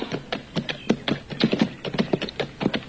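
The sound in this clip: Horse hooves clip-clopping as the horse is ridden into town, a steady run of many hard, rhythmic hoof clops at an even walking pace.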